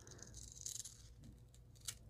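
Scissors cut paper from a magazine, giving a few faint, crisp snips with soft rustling between them. The sounds are quiet and spread out, with no talk.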